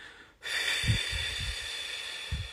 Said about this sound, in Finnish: tällainen hengitysharjoitus, jossa hengität pidempään ulos